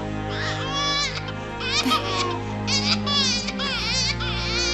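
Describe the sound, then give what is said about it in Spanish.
A baby who had been playing on a blanket cries in a dramatized scene, giving a few short, high, wavering wails over low, steady background tones. “Oh, hijo, ¿qué pasó? Y se arrodilla junto al bebé que jugaba sobre una manta. ¿Por qué lloras?”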